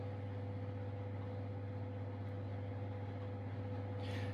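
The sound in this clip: Kitchen machine running at speed 5 with its lid on, giving a steady, even motor hum with a strong low drone. A brief hiss rises near the end.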